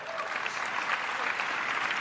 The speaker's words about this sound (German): Je jünger, desto größer der Applaus.